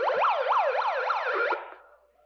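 A megaphone siren gives a warning wail of rapid, repeated up-and-down pitch sweeps for about a second and a half, then trails off into silence.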